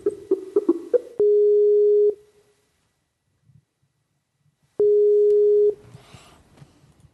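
A telephone line connects for a call with a quick run of short dial beeps, then two long, steady ringing tones separated by a gap of near silence.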